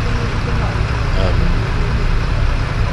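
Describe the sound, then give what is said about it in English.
Engine of a small tourist bus riding down to Port Olymp, a loud, steady rumble with broad road and motor noise that holds even throughout. “We're heading down to Port Olymp, which is where this little touristy bus goes. I don't really usually do touristy buses”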